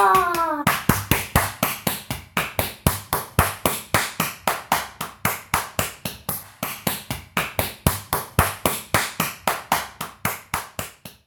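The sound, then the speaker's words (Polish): Hand clapping in a steady, even rhythm, many sharp single claps in a row at a moderate pace after a brief voice at the start. “klaskanie. Brawo!”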